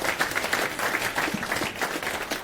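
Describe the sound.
An audience at a conference applauds to welcome a speaker before a talk on open-source rocketry, with steady, dense clapping throughout at an even, moderate loudness.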